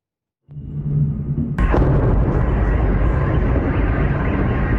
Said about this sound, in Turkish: Bir askerin omuzdan atılan roketle İHA'yı vurmaya çalıştığı sırada çevredeki Türklerin vur vur diyerek cesaret verdiği görüntüler sosyal medyada yayınlandı.